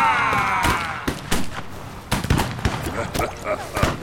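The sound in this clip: Pistols are fired in a pirate audio drama, with many sharp bangs cracking out in an irregular, uneven volley.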